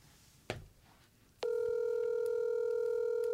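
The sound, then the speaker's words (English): Ringback tone of an outgoing phone call: a soft click first, then a steady, buzzy, fairly loud tone that starts abruptly and holds unbroken to the end. “I'm giving one more ring if it don't go voicemail.”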